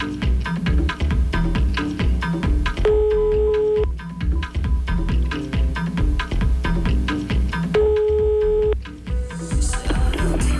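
Ringback tone of an outgoing telephone call waiting to be answered: two steady, roughly one-second tones about five seconds apart, partly masked by constant, dense, loud background sound.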